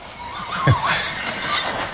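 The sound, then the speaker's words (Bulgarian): A horse neighs in a brief, high whinny that stands out above a steady background hum before fading into the surrounding noise. “Явно някой държан на каишка е решил... Да разходи кон.”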